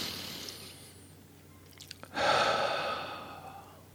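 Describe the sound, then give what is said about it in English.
A deep breath: after a quiet stretch with a few faint clicks, one long, airy breath swells suddenly and then slowly fades away. “take a nice big deep breath. Take another nice deep breath.”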